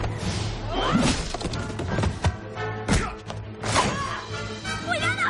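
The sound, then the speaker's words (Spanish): Heavy whacks, thuds and crashing impacts of blows in a film fight against two shopkeepers who turn out to be robots, dense and cluttered, with several hits in quick succession over a busy background. “Casey se libera y golpea a los dos tenderos. Athena aparta a Casey y pelea contra ellos.”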